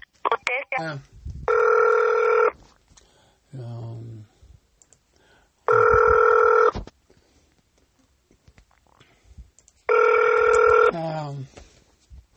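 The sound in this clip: Telephone ringback tone on a call to a county behavioral health access line: three steady buzzing rings about four seconds apart, with brief voices heard between them.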